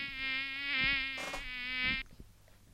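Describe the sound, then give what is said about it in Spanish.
Mosquito buzzing as a steady, high, whining drone that lasts about two seconds, swells slightly midway, then cuts off abruptly and leaves faint background noise. “Un mosquito. Un mosquito, un mosquito.”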